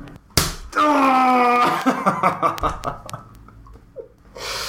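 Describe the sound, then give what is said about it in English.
A knife-edge chop in a wrestling video game lands as one sharp, loud slap, followed by a drawn-out shout and then bursts of laughter. “Flare chop. I can't play with this controller.”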